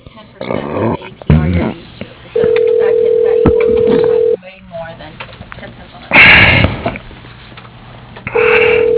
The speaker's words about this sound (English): To speak to a representative, dial 5.